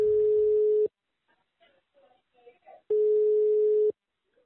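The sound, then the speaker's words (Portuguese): A mobile phone call's ringback tone: two steady, mid-pitched beeps, each about a second long, separated by a quiet gap of roughly two seconds. “Então eu peguei o celular e liguei pro seu José para saber a história dele.”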